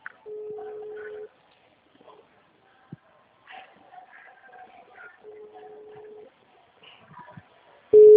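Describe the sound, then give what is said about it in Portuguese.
Ringing tone of an outgoing phone call: a steady, low single-pitch beep about a second long sounds three times, with long quiet gaps between. Faint voices murmur in the pauses, and the last tone is cut off. “Eu tô te ligando, você consegue me atender?”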